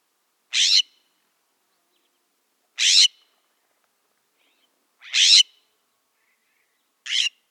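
Scrub jay calling: four harsh, raspy, high-pitched calls, each under half a second, evenly spaced about two seconds apart with silence between them.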